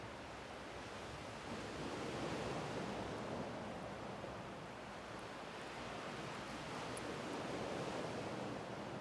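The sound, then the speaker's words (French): Ocean waves mix with wind in a continuous broad roar that swells gently and never breaks into separate crashes, the surf and gusts blending almost indistinguishably. “Parfois, nous avons du mal à discerner le son des vagues de celui du vent.”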